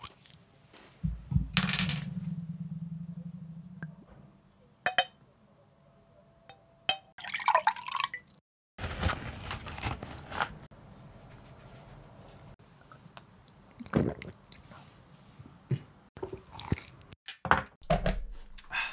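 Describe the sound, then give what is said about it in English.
Tequila being poured and glasses handled, heard as scattered clinks, taps and liquid splashes of uneven loudness. Quiet gaps separate them, and a steady low hum sits early on. “That was the sound of tequila,”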